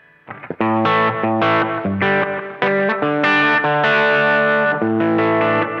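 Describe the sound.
Electric guitar riffs played through a Blues Driver overdrive, an Echo Baby echo pedal and a Strymon reverb into a Quilter amp: loud, sustained distorted chords and notes changing in a steady riff, with echo and reverb tails.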